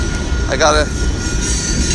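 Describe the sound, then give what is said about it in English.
A train passes in a steady, loud rumbling wash, with a short tonal whine near the start before the noise evens out again. “The train is in my way home.”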